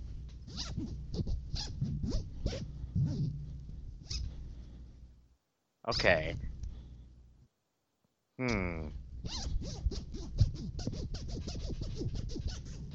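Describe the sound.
The fly zipper on a pair of jeans is pulled several times, making raspy, rapidly ticking runs separated by short silent gaps. A voice briefly speaks.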